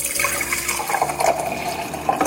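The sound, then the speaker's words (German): Liquid pouring and splashing as a mixed cocktail of Aperol, sparkling wine and orange juice with ice cubes is filled into a glass. A steady, faint, fizzing rush with no talk. “So schaut das Ganze nach dem Mixen aus. Einmal abfüllen.”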